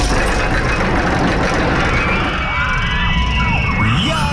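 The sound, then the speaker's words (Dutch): A roller coaster runs along its track, giving a dense, continuous rumble and rattle with a constant loud level, and faint voices rise over it partway through. “Als je die hoort, als je de achtbaan hoort rijden”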